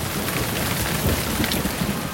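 Rain falls as a dense, steady hiss that stays the same loudness through the whole clip, with no pauses and no voices.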